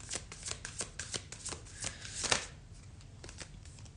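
A deck of cards is shuffled before one card is drawn: a rapid, quiet run of many crisp riffling flutters that continues for several seconds with no voices.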